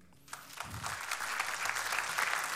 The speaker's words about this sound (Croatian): Moram jedan veliki aplauz.